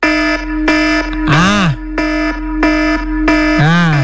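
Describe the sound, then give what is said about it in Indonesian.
A loud alarm clock rings with harsh, evenly spaced electronic buzzing beeps, broken twice by warbling, siren-like swoops that dip and rise in pitch. “Lo pakai alarm yang ini kalau muda.”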